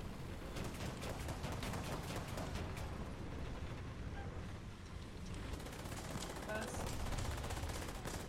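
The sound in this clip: Gunfire in a tank combat video game: a continuous, dense rattle of rapid machine-gun-like shots with heavier bursts mixed in, steady and fairly quiet throughout.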